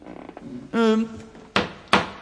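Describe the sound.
Two sharp wooden knocks of a small judge's gavel struck in a courtroom, the second following shortly after the first, both loud and crisp after a brief voice.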